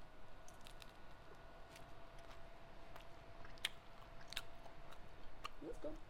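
Deep dish pizza being eaten: soft, faint chewing and biting with wet clicks and smacks, plus some quiet crunchy ticks throughout.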